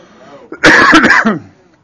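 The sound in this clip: A throat-clearing cough from someone with something caught in their throat: one rough, harsh burst of under a second that stands out loudly against a quiet background, with no talk.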